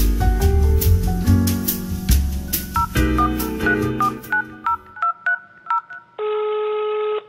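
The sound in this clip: Telephone keypad dialing tones sound as a run of short, clear beeps in quick succession at varying pitches, followed by a loud, sustained tone at the end.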